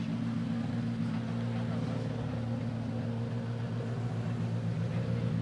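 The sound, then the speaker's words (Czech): Steady engine drone from a rally car approaching on the final special stage of the day, a low, even rumble holding at a constant level throughout, with no clear pass-by swell. “Tak my počkáme na průjezd dalšího vozidla, které se již jistě blíží do cíle 13. a dnešní poslední rychlostní zkoušky.”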